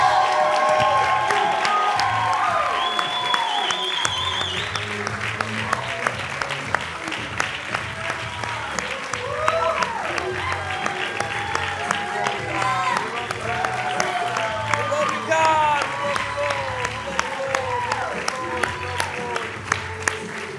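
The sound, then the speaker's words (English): A church audience applauds in sustained, steady clapping as a hand of praise for Jesus, with cheering and shouted voices mixed in throughout. “Why don't we give Jesus a hand of praise?”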